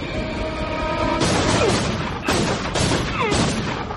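Gunshots fire repeatedly in a drama: a few loud, harsh blasts come in quick succession over dense, constant noise.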